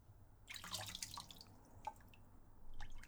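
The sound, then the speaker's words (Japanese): Water drips into a plastic bottle below in faint, irregular drops and small trickling splashes over a soft low hum, with one sharper plink standing out among them. “下のペットボトルに溜まっていく音、聞こえますか？ここに全部流れていくんですよ。”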